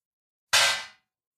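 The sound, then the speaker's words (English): A single d20 die is rolled for a tabletop game attack, giving one sharp clattering hit that rings briefly and fades quickly into silence. “So roll that d20 and um,”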